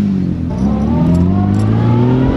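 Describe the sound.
A car engine accelerates hard from the start of a countdown-timed run toward Chur on a wide road through a mountain valley. Its steady, loud drone climbs in pitch over about two seconds.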